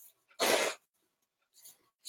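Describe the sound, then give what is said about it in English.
A person with a runny nose blows it once in a short, forceful, noisy blast, followed by a couple of faint brief puffs. “Excuse me, I'm going to blow my nose here.”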